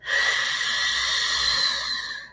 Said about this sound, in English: exhale through the mouth, just purse your lips and you just have this.